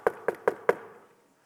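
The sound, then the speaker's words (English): Four evenly spaced knocks on a locked door late at night: sharp hollow raps about a fifth of a second apart, each fading briefly, then quiet. “And obviously the door is locked. It's late at night. And so he knocks on the door.”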